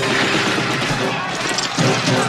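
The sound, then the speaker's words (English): Gunfire in a combat scene from the film Salvador, a dense, loud crackle of shots packed closely together amid noisy chaos, continuing with no pause. “Whatever you do, okay? Don't get on the ground. They're not just shooting the Indians. They're shooting at us.”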